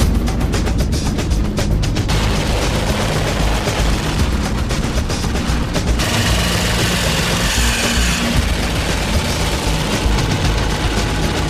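An old-school, owner-restored motorcycle engine runs loudly and roughly, with a continuous raw roar and dense, rapid crackling pops throughout.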